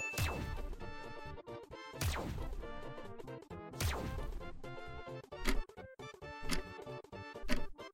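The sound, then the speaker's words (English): Exogun shots from a video game: a series of heavy, metallic blasts, each with a sharp crack and a ringing, descending tail. Several shorter, punchy hits follow in an irregular rhythm. “That was an exogun shot.”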